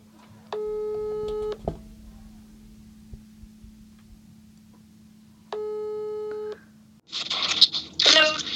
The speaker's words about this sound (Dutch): misschien moeten we haar even bellen. Is dat een idee? Nu? Ja.